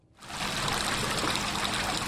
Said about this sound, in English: A number of shoreline properties in downtown Clayton are running pumps around the clock to get water out of their basements.